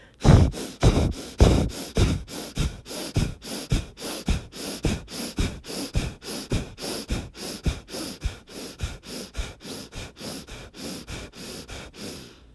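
Rapid, forceful breathing from a breath-of-fire exercise: many quick, sharp nasal exhales in a steady, even rhythm. The first pulses are loudest, then the rest settle into a slightly softer, regular pace.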